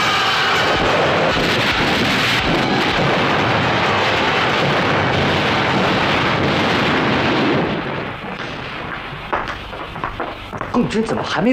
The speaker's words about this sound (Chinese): 我们已经向炮兵延伸射击了，步兵开始冲锋了